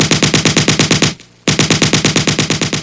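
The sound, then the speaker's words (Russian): Loud, pounding fire from a heavy tripod-mounted machine gun comes as a long, fast, regular string of booming shots. It stops briefly partway through, then resumes at the same relentless rate. “Резкий и гулкий треск длиннющей очереди поставил точку всем тихим перешептываниям и разговорам.”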